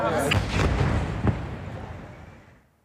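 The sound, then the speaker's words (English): A deep, rumbling blast from an Israeli fighter jet airstrike on a residential building near Al-Aqsa Hospital in Deir al-Balah, central Gaza, with a sharp crack partway through before the roar fades away. “This is the moment Israeli fighter jets struck a residential building near Al-Aqsa Hospital in Deir al-Balah in central Gaza. The strike has left widespread devastation in the area.”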